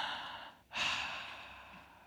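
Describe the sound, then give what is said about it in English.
One deep breath, an airy, rushing intake that starts suddenly after a brief quiet and then slowly fades, clearly audible on its own. “Because breathing might just remind you that you're not God and the very breath within your lungs is a gift.”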